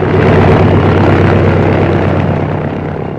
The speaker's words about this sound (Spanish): el pequeño aparato se deslizó velozmente por la pista y en unos segundos alzó el vuelo.